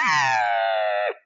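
A person imitates a cow elk call to draw a bull closer. A single drawn-out, nasal mew holds an even pitch for about a second, then drops off and ends sharply.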